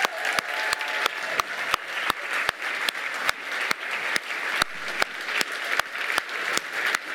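Dense, steady audience applause fills the whole stretch without letting up as three crime novelist guests are welcomed.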